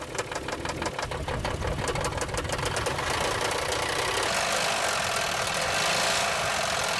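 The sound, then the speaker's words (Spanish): An engine runs rough with damaged oil and compression piston rings leaking compression. It knocks rapidly and evenly with a strong vibrating rattle, loud and continuous throughout. “A veces, por una mala lubricación o un sobrecalentamiento, se dañan los anillos de aceite o de fuego, causando que la compresión se fugue por ahí, y podría causar que el motor vibre mucho y funcione más o menos así.”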